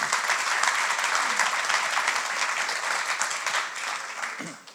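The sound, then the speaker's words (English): Audience applause, a full, steady patter of many hands clapping that holds evenly before tapering off at the end. “put around a round of applause for these guys here”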